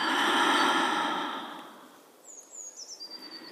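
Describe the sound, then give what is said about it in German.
A deep breath pushed out through an open mouth, a long, soft airy rush that fades away, followed by faint high bird chirps repeating quickly in the background. “Nimm hier einen tiefen Atemzug durch die Nase ein und durch den geöffneten Mund wieder aus.”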